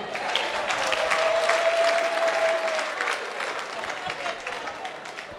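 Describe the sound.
Applause and cheering from a church audience, a dense, steady wash of clapping with crowd voices mixed in that holds strong for about three seconds, then eases slightly while continuing to the end.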